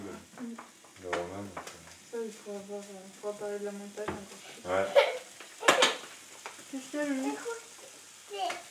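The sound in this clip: Bacon bits (lardons) sizzling in a frying pan, a steady crackling hiss with a few louder bursts, running under people talking, including a child's voice.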